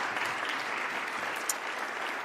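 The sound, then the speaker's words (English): Audience applause: dense, even clapping from a crowd holds at a steady level for the whole stretch without a break. “So give yourselves also a lovely, lovely round of applause.”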